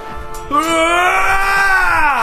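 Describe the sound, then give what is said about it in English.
A single loud battle cry, yelled by a player voicing a character during a tabletop fantasy game. The strained, wailing note is held for about two seconds, rising slightly and then sagging at the end. “Battle cry.”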